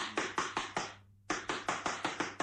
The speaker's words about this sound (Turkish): Yoksa kapıyı vurayım bakayım.